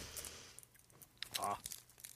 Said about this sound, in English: I didn't chew it. I just sucked on it. No, I chewed it. I ripped the skin off of it. I chewed it.